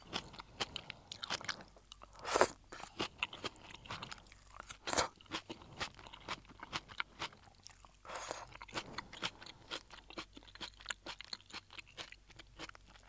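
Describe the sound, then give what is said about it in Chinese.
Faint crunchy chewing and biting as napa cabbage from a Japanese supermarket soup base is eaten: many irregular bites and chews, with a few louder crunches standing out. “而且这里面的这个白菜真的是越吃越好吃，越吃越甜。”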